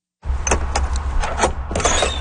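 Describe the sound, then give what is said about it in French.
The door of a small trailer is opened: a steady low rumble runs under a few sharp clicks and scraping rattles as the door moves, fairly loud, with no voices. “Il nous ouvre la porte de la petite remorque dans laquelle se trouvent ses derniers objets.”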